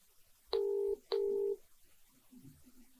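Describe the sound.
Two DTMF keypad tones from a telephone being dialed to place a private, number-withheld call. Each tone is loud, steady and lasts under half a second, with a short gap between them, followed by faint low noise.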